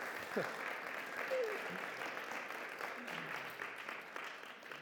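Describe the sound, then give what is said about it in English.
An audience applauds to welcome Elliot, a colleague from Compassion, onto the stage. The clapping is a steady, fairly soft patter that tapers slightly, and voices are heard over it. “You want to give him a warm hand just so I welcome him up.”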